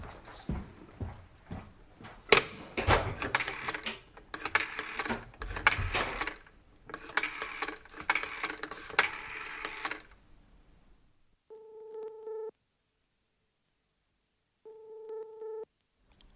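Telephone being dialled, then ringing: several seconds of dense clattering and clicking, then two steady, buzzing ring tones about a second long with a pause between them.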